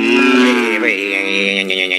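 A calf moos in one loud, drawn-out bellow, a rich harmonic call that wavers briefly partway through before holding steady, heard alone.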